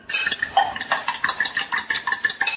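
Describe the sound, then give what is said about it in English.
A whisk beats two eggs in a bowl for a spicy cabbage-roll mince filling, making quick, regular clinking and scraping strokes of fairly even loudness in a steady, brisk rhythm with no talk. “And I'm just going to whisk those up.”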